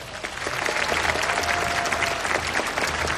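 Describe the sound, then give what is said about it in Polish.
Applause from a festival audience, dense and steady clapping that holds at an even loudness for the whole stretch, with no voices standing out. “Proszę o brawa.”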